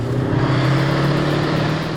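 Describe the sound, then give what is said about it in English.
The engine of a Warrior armoured vehicle driving laps around an arena at an annual tank festival in Dorset gives a loud, steady low drone with a constant hum. The drone holds level throughout with no talking. “drove laps around the arena in his old workhorse Warrior”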